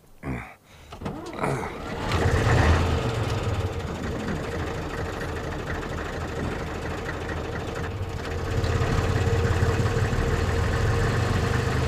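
A car engine starts with a brief rough burst, then settles into a steady, low rumbling idle. The idle grows somewhat louder in the final few seconds.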